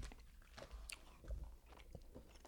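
Faint chewing of fruity Warheads sour candy, with soft irregular crunches and wet mouth sounds spread across the moment and no talk.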